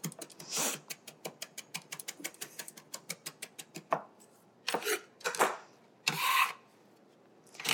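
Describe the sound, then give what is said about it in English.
A knife chops a small handful of piled cilantro on a cutting board, the blade rocking back and forth without leaving the board. Many quick, evenly spaced strokes are followed by a few slower, longer scraping bursts, with no talking. “One little handful of cilantro piled together, run your knife through it, running the knife along the board, not picking the knife up from the board at all, just running back and forth, up and down with my shoulder only.”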